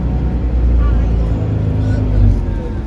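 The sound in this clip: A shuttle bus passes on a road, a loud, steady low engine rumble mixed with traffic noise that swells slightly near the end, with people talking underneath.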